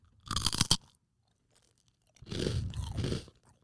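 Two bursts of crisp crunching as someone bites and chews spicy mentaiko-flavoured rice crackers, separated by a quiet pause.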